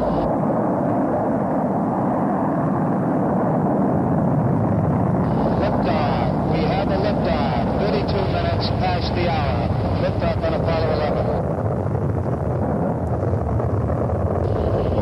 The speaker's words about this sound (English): 10, 9, ignition sequence starts. 6, 5, 4, 3, 2, 1, 0. All engine running.